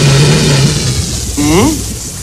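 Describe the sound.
A homemade air box buzzes as air is blown across its stretched, vibrating rubber band, giving a steady, fairly loud low drone that weakens after about a second before a short higher sound.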